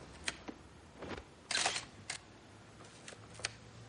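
A camera shutter clicks as photos are taken from a window: many quick, faint mechanical clicks come at irregular intervals, with a rapid burst near the middle, over a low, quiet background.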